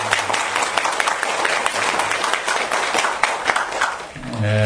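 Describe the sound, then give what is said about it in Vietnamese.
An audience gives a doctor a big round of applause at a gathering: dense, steady clapping that fills the whole stretch at an even loudness and stays loud to the end. “chúng ta mừng bác sĩ một tràng pháo tay lớn”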